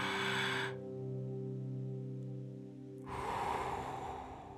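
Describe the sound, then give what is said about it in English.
A deep breath taken during a guided breathing exercise: a breathy inhale, a pause while it is held, then a long audible exhale, with a steady low tone sustained beneath. “Let's take a few breaths. You ready? Hold it and let's take another one.”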